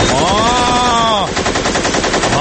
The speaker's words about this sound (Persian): میخوام یکم صدای جنگ پخش کنه، شما بیشتر در جریان ریز امور قرار بگیر. مرداد جان شلیک کن لطفا.